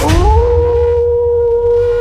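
A wolf howl sound effect in a radio station jingle: one loud, sustained tonal howl that rises briefly at the start, then holds a steady pitch for about two seconds over a low rumble.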